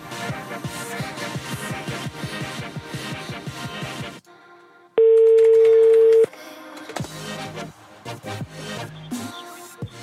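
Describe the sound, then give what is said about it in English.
An unusual mobile phone ringtone: a melodic electronic tune of rapid repeated notes, broken by a brief gap and a sustained steady tone, then more melodic notes. “Why does it make that ringtone? That is unusual.”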